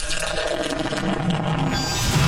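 Liquid pours in a steady, full rush, a continuous splashing hiss that stays even and fairly loud throughout, with no talk.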